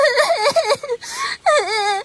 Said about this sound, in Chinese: 我的孩子在哭。